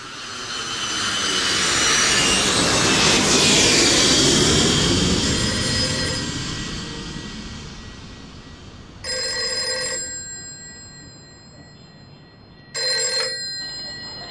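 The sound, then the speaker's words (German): A jet airplane landing, its broad roar swelling loudly and then slowly fading, followed by two separate bursts of a ringing telephone bell. “Ich bin in Chicago. Bin gerade gelandet.”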